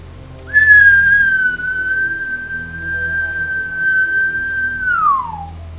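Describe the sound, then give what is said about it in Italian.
A single long whistle blast: one steady, loud, high tone held for about four and a half seconds that bends downward in pitch as it ends, over a low background rumble. “Il suono di un fischio. Uno lungo. Uno corto. Uno lungo.”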